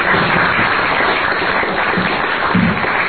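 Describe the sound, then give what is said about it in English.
Audience applause at the close of a storytelling talk: a dense, steady wash of clapping that holds at an even loudness for the whole stretch, with no voices standing out. “Okay, could we have a nice round of applause?”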